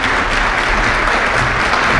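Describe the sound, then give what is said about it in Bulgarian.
An audience applauds a stage performance by the Trio Elika, a dense and loud burst of clapping that holds steady throughout. “Аплодисменти за трио Елика.”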